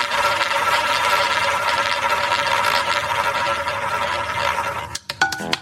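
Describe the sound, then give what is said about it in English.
A roulette wheel machine spins as a sound effect: a steady, loud whirring rattle runs for several seconds, then breaks into a few sharp clicks as it slows. “second spin on the Golden Years roulette wheel machine. Let's see what year it selects this time.”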